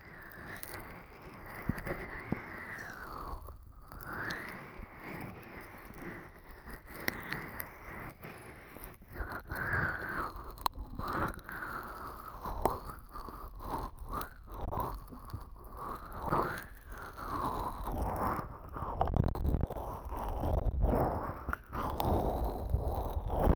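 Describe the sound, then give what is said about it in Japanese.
An ear massage works on the left ear, with close, continuous rubbing, crackling and scratchy friction. The rustling texture swells and eases in an uneven rhythm, fairly soft and without talk. “それではまず、左のお耳からマッサージさせていただきます。”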